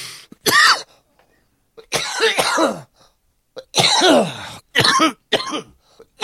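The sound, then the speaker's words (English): Several harsh coughing fits from a person with congested lungs bringing up clear, thick mucus, with asthma and strained breathing. The bursts are loud and ragged, separated by short silences. “I'm coughing up like clear, gloppy, glycerin-y tasting stuff. And it's making me sick, and it's making it hard to breathe. Like you can hear.”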